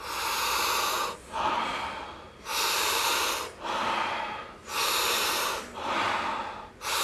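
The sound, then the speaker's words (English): Rhythmic breathing from a breathing exercise with soft, relaxing exhales: a steady, even series of airy breaths, each lasting about a second, alternating between fuller and softer phases with no talk. “And the exhale, it's a soft, relaxing exhale. We do it rhythmically, we do it together, and it sounds like this.”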